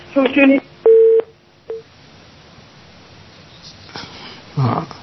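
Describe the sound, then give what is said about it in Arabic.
Telephone line tones on a call to Algeria: a steady mid-pitched tone lasting about a third of a second, then a short one, with brief voice sounds at the start and end. “يبدو اتصال بالجزائر صعب”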